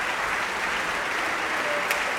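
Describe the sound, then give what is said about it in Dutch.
Audience applause in a large concert hall at an early-music festival, for the basso continuo section of a baroque opera performance (theorbo, viola da gamba, harpsichord): steady, dense clapping throughout with no pause. “Dit is even applaus voor de basse continuo sectie.”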